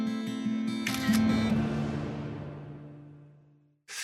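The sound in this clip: A brief shutter click from a phone camera taking a selfie, followed by a low hum that slowly fades away.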